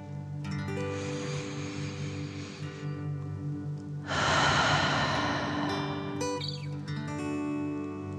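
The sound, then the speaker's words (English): A slow, deep breath filling the chest and belly, drawn in and then let out, the exhale louder and rushing, over a soft, sustained musical drone. “Fill up your chest and belly. Deep breath in and out.”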